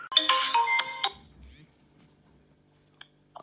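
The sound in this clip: A phone ringtone for an incoming call plays a bright, beeping melodic burst that cuts off abruptly, leaving near silence with a faint click.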